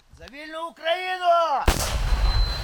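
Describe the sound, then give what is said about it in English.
Anti-tank rocket-propelled grenade fired at troops about a mile and a half away: a long wavering tonal sound breaks into one sudden loud blast, followed by a dense rushing roar and rumble that carries on to the end. “They fire an anti-tank rocket-propelled grenade unconventionally at Russian troops a mile and a half away.”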